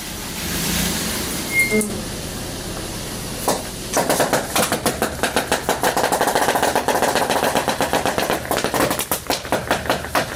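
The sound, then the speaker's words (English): A vehicle rolls over an unfurled roll of bubble wrap, setting off a few isolated pops and then dense, irregular bursts of sharp crackling that run almost continuously to the end. “Somebody driving over a roll of bubble wrap.”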